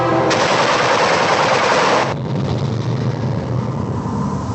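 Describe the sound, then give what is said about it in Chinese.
Fierce machine gun fire inside a cave opens with a loud, continuous rattling burst of about two seconds. A lower, steady rumble carries on after the burst ends. “洞里响起了猛烈的机枪射击声。”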